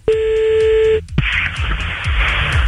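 Telephone tones as a call is placed during a late-night radio prank call: a steady pitched tone holds for about a second, then gives way to a hissy open line with faint clicks.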